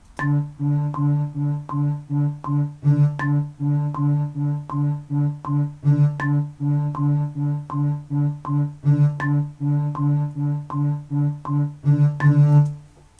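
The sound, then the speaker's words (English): Eighth notes are played in time with a metronome. Steady pitched notes repeat at an even pace, two for every sharp metronome tick, and a brighter accented click recurs at regular intervals throughout. “And eighth notes played in time with the metronome sound like this. Should be twice as fast as a quarter note.”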